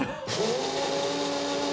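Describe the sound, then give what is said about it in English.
Steady electric whirring from a coffee maker brewing in a ship's galley: a droning mechanical hum with a faint sustained tone that rises slightly, after a brief quieter moment at the start. “It's fine. It's the noise of a ship. The ship brews coffee in the corner.”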